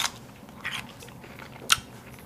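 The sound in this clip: Crisp crunching bites into a fresh, refrigerated Grillo's pickle: a few sharp, short crunches separated by quieter chewing, the last crunch the loudest.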